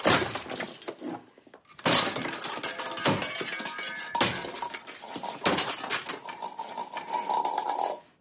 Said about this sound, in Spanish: Tira el vaso en el fregadero y golpea la base de la batidora contra la encimera. Termina de romperla con un rodillo.